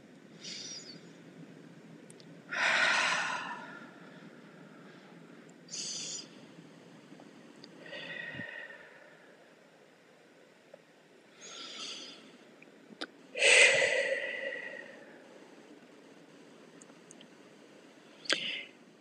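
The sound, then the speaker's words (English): Slow, deep breaths drawn during a guided breathing exercise: several soft, airy inhales and exhales spaced out with quiet pauses between them, faint and unhurried. “So let's do 2 or 3 breaths with our attention on the breath.”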